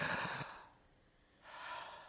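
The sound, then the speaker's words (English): A single deep breath, drawn in and then let out. Each phase is a faint, airy rush, heard alone with a short pause between inhale and exhale. “Ready? Take a deep breath. I want to hear it. I want to hear it.”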